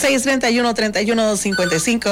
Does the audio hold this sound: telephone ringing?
yes